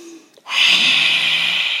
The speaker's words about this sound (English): The lion breath is you breathe in through your nose and then you exhale through your mouth with the tongue extended as far out as possible with a real roar. So it sounds like this.